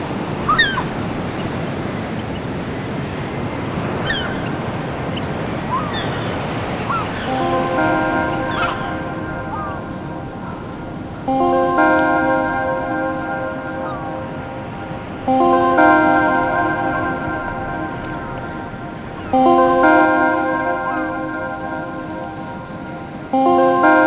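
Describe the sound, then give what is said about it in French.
Sea surf rolling in by sandy dunes makes a steady, broad rush of waves throughout. Partway in, a bell-like ringing tone joins and recurs at regular intervals over the surf. “les dunes et la mer semblent s'étirer à l'infini.”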